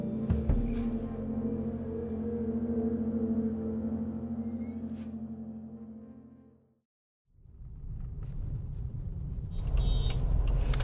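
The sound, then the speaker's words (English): A car drives down a busy highway in Lagos on a sunny afternoon, giving a steady low engine hum with a layered drone. The hum fades almost to silence, then rougher rushing road noise swells back in. “I'm driving down a busy Lagos highway with my sister.”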